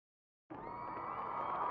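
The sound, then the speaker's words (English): Cheering from an audience going wild before a show in a packed venue bursts in abruptly after a brief silence and holds as a loud, sustained roar of many voices. “It's time. The audience is going nuts out there.”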